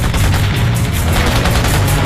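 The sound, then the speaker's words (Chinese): Gunfire sound effect from troops holding out north of Suzhou Creek: a loud, dense, continuous crackle of rapid shots blending into one unbroken barrage. “子弹来自于苏州河北，在那里还有国民党军在负隅顽抗。”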